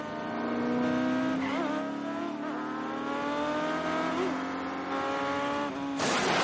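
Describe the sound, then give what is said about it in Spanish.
Engine roar of an off-road vehicle pursuing a car in a chase in the film Mission: Impossible 2, a sustained revving drone with a wavering pitch that ends in a sudden noisy burst. “A continuación, Ethan es perseguido por el todoterreno.”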